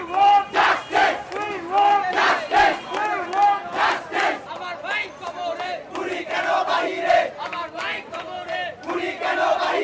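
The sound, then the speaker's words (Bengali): Protesters chanting slogans on a street, with students demonstrating in Bangladesh: a loud crowd shouting repeated phrases together in a pulsing rhythm of many bursts. “এ সময় স্লোগানে মুখর ছিল রাজপথ।”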